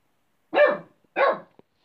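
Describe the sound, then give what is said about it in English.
A dog barks twice in quick succession in the background near a stone circle on a bare hill, each bark sharp and fairly loud, followed by faint clicks. “A dog's barking in the background”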